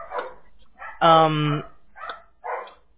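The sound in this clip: Dogs bark at home, one long loud bark standing out among a few shorter yips, with someone talking in between.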